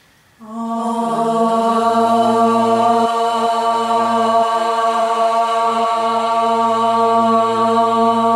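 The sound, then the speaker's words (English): A single long om chanted at the close of a yoga session, the first of three. After a brief quiet start it enters abruptly and holds as a steady, loud, resonant hum with a low drone for about eight seconds, without a break. “Exhale your breath and we'll inhale for the first of three ohms.”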